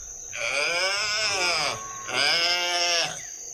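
A calf bleats twice while about to suckle, each call long, loud and strongly harmonic, with a short pause between them.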